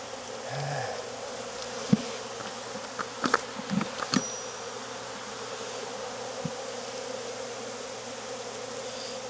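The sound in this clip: Bees buzz steadily around an open beehive during an inspection of frames with capped comb, a constant droning hum broken by a few brief, sharp clicks in the middle.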